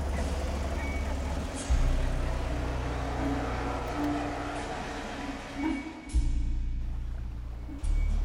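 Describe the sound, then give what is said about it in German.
A Mercedes with diplomatic plates drives through a barrier onto works grounds. Its engine makes a steady low rumble that holds an even level and briefly swells near the end. “Der Mercedes fuhr auf das Betriebsgelände.”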